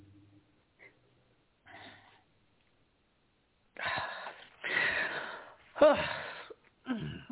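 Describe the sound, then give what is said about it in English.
Crying and gasping breaths from a woman trying to read aloud while catching her breath: a few faint breaths at first, then several louder, shaky, voiced sobbing bursts. “It's not that I can't physically read it. I'm trying to catch my breath as I'm crying.”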